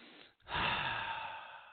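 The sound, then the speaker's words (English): One long, deep breath begins after a brief silence and rushes in loud and airy, then slowly fades away. “So take a big deep breath.”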